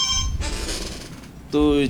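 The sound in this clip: An incoming telephone call rings with a short, steady electronic tone near the end, after a stretch of noisy background sound.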